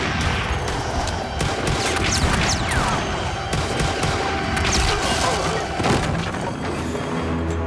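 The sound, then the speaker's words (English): Heavy gunfire forms a dense, unbroken barrage of overlapping shots and crashes, loud and sustained throughout with no clear gaps between reports. “who's shooting? Whoever's shooting, call in your position now.”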